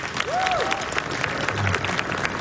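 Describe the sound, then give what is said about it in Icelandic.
Audience applause at a summer jazz event, a dense, steady patter of many hands clapping at an even level through the whole clip. “Já, já, klöppum fyrir því.”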